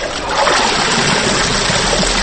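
Water sloshes and splashes as a woman of nearly seventy washes laundry by hand, a steady loud swishing with no voices.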